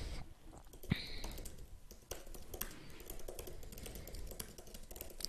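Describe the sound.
A message is typed on a computer keyboard in a fast, irregular run of many light key clicks and taps that continues throughout at moderate loudness, with no talking.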